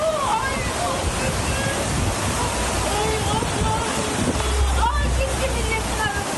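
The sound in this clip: Floodwater rushes from a stream that overflowed after a downpour in Yalova, Turkey, sweeping chairs away at a coffeehouse. It makes a loud, steady roar of churning, sloshing water, with faint voices under the torrent.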